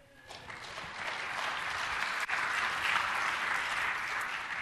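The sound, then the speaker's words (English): Audience applause in a conference session on Microsoft search display templates: steady, dense clapping that swells after a quiet start and holds loud and even to the end, with a brief dip midway. “Yay! I can't take your applause for that because I don't work for Microsoft.”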